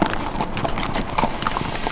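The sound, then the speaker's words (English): Horse hooves clip-clop as riders walk along a trail: many moderately loud hoof strikes in a steady, even rhythm, with no voices. “Michael caught the horn and swung up into his saddle. Paul mounted up and they both continued along the trail.”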